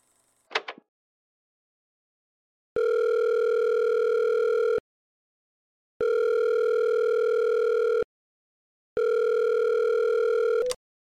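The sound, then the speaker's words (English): An unanswered phone call sounds as three long, steady ringback tones separated by short silences. A brief click comes before the first tone and another cuts off the last. “Call her right now. Got it.”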